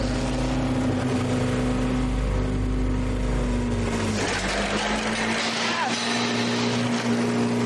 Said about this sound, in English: They start the engine. Interesting to see what's going to happen now.